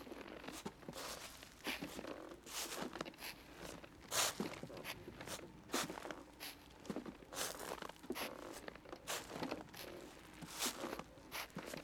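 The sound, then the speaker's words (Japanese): Crunching footsteps in snow from someone walking steadily while holding a rope: many quiet, gritty steps in an even rhythm throughout, with no talking. “足跡が残るように踏んでいるから、”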